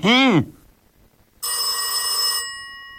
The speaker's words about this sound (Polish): Tak, my zaraz odbierzemy telefon